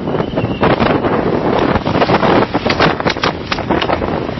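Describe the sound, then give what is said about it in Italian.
Storm wind roaring and gusting outdoors during a violent squall, loud and continuous with buffeting bursts against the microphone and no voices. “Ecco, siamo praticamente in mezzo a una vera e propria bufera. È veramente pazzesco il tempo.”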